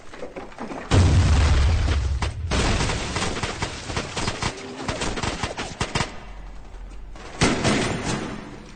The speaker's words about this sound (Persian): نارنجک